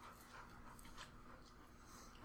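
A dog panting from storm stress during a thunderstorm: rapid, faint, breathy pants repeating in a steady rhythm, with no talking.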